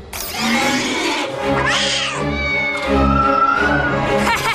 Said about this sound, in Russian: Что? Киска, уйди, я ничего не вижу! Не люблю кошек!